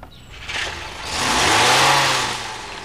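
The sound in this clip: A car engine revving as a parked car on the other side of a street drives away, a broad roar swelling to a peak midway, a low engine tone rising in pitch, then easing off slightly, with no voices.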